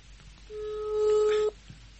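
A telephone call tone while calling someone: one steady, mid-pitched tone lasting about a second, rising out of a low hiss and cutting off sharply.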